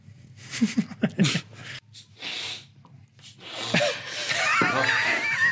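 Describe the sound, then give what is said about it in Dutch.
Nasal spray is used with sniffing: a few short breathy bursts, then longer hissing sniffs through the nose, fairly soft and without talk. “oh god, even wachten. Ik moet denk ik even neuspray doen.”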